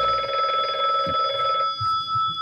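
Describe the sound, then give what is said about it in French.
A telephone bell rings in one continuous, bright burst lasting about a second and a half, then falls silent. “Excusez-moi, c'est mon téléphone, patron.”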